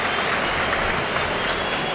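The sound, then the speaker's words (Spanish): A stadium crowd at Mestalla applauds a substituted footballer as he leaves the pitch, producing a thick, continuous roar of clapping that stays steady throughout. “Se va Fran Pérez, entre aplausos. Esta es la despedida de Mestalla, Fran Pérez.”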